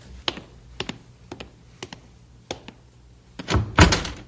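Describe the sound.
A door is opened with several sharp clicks and thunks spaced apart, then a louder rattling burst near the end as it swings open.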